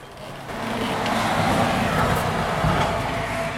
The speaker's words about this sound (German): Das steht direkt an der B3. Gibt es wenigstens hier in Jesberg eine Entlastung durch die neue Autobahn? Ja, wir können gerne mal das Fenster öffnen, dann hören wir, welche Lautstärke dann hier bei mir im Büro ankommt.